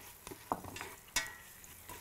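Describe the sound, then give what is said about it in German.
Spices roasting with onions in a pan: a soft, continuous sizzle of frying, broken by a few sharper clinks and scrapes as the mixture is stirred. “Wir rösten die Gewürze jetzt noch mit den Zwiebeln hier an.”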